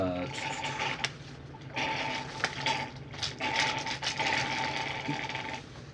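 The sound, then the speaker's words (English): Someone sucks a drink through a straw during a tabletop role-playing game, making a continuous gurgling, hissy slurp with a crackly texture that runs for several seconds with only brief dips. “Straw sucking.”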